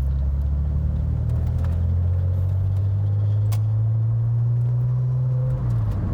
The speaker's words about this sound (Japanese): 運転しながら喋るって結構大変ですね